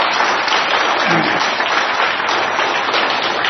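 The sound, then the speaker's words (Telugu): An audience at a class gathering claps in sustained, dense applause that stays steady and evenly loud throughout. “అన్నదాత సుఖీ బావ ఒకసారి చప్పట్లు కొట్టాలి అన్నదాతకు”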